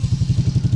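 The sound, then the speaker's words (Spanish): Low, steady throb of a Suzuki DR150 ABS motorcycle engine running, with a quick, even beat of pulses throughout the short burst. “Así suena la moto que vamos a entregar, la DR150 ABS. Suena así de sabroso.”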